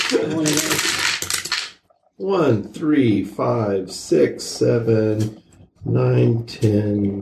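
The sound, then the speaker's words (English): A handful of dice rattle and clatter through a dice-rolling device during a tabletop game, a dense, bright burst lasting under two seconds, followed by people talking. “You get to roll this wad of dice in your dice rolling device. Dice rolling device, go!”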